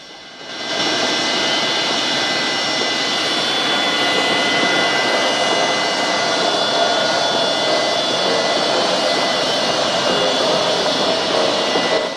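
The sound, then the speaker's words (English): Loud, steady jet engine roar with a high whine as a yellow plane taxis along the runway at McCarran International Airport, Las Vegas. The roar rises after a brief quieter start and then holds constant. “A yellow plane taxis along the runway.”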